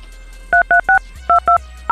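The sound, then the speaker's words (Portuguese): Six short two-tone DTMF beeps as a telephone number to Jundiaí is dialed, loud and evenly pitched, in two quick groups of three with a slight gap, over a low steady hum. “Devo estar ligando para Jundiaí agora, eu acho.”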